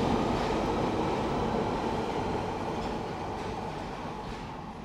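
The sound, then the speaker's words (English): A London Underground tube train runs with a loud, steady rumble and rattle that hardly changes through the whole stretch, fading only slightly toward the end, with no voices. “And you might notice we don't talk much in the tube because it's making too much noise.”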